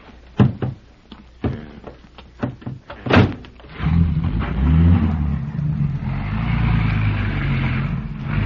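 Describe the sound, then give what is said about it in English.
A few car door thuds and clunks as people climb into a station wagon, then the engine starts and runs with a steady, rumbling drone. “We haven't time to do anything but get in and drive away. All right. Well, hop in quickly, boys.”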